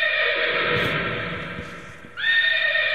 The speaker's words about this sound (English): Don't be disrespectful to the horsey, will you?